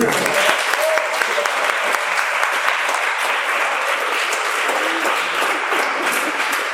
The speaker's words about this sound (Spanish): démosle un aplauso.